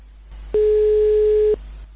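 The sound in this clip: Ringing tone of an outgoing telephone call: a single clean, mid-pitched tone lasting about a second, rising out of and dropping back into a low, steady line hum.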